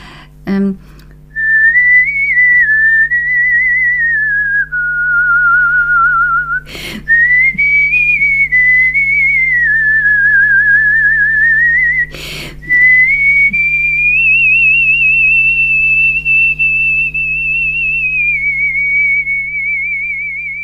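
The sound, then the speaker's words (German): Someone whistles a melody into a microphone, a long, smooth line with steady vibrato that wanders up and down in pitch. Two brief sharp knocks break it, and a constant low hum runs underneath. “Und das habe ich dann auch mit Mikrofon natürlich, weil ich pfeife sehr leise und dann trägt sich das nicht.”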